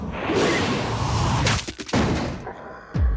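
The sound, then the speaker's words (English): A crossbow fires an arrow at a zombie at a filling station, a sharp swish and thud near the end, preceded by a few brief knocks over a steady roar of background noise. “fires a crossbow.”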